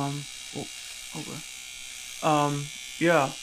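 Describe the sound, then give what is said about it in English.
An electric shaver buzzes in a thin, constant drone while shaving, running beneath intermittent speech. “I'm just going to start shaving, if that's all right. Hopefully, it's not too noisy.”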